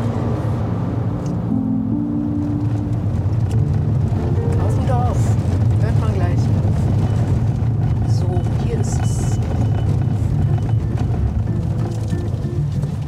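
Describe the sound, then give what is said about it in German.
A car drives along a country road in the hilly Uckermark, with a constant low engine and road drone from start to end. Voices can be heard at times over the drone. “Jetzt fahren wir rein in die Uckermark.”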